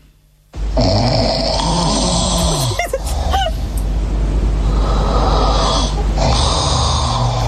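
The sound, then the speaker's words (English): Loud, rasping snoring from a person bursts in after a brief quiet start, then runs as a long, harsh, continuous snore with honking, wheezy tones that hold strong to the end. “Whose snore is worse?”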